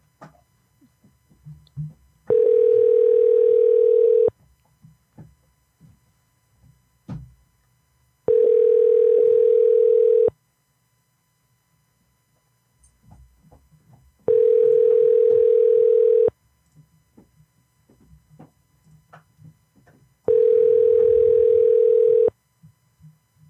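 Telephone tone heard while a call is placed: four steady, two-second tones at even intervals, separated by quiet gaps with faint scattered background sounds.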